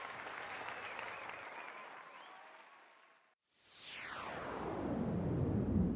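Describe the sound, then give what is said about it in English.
Applause welcomes a guest onto a show: a steady wash of clapping fades to a brief silence, then a loud falling whoosh sweeps in as a second round of applause swells and keeps growing. “put your hands together and let us welcome to the show our guest, Mr. Cliff Ravenscraft.”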